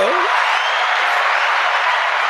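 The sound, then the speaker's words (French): A canned applause sound effect plays on a French show, a steady, dense hiss of clapping that neither builds nor fades. “Ah oui, on a des effets, tout ça, applaudissements.”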